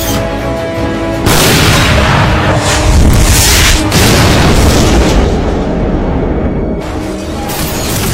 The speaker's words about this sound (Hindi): दोबारा फायर करेंगे।